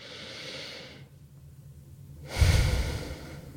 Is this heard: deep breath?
yes

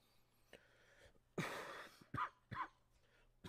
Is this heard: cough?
yes

